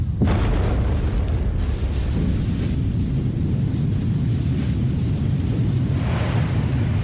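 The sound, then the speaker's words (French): A muffled explosion blasting a dam: a sudden loud low boom opens, then a heavy deep rumble continues steadily to the end. “Puis, on entendit un grondement sour, un boum, étouffé.”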